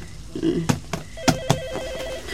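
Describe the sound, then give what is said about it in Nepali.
A telephone ringing in a radio drama: a warbling electronic ring tone in one burst, with a few sharp clicks before and during it. “Phone phone”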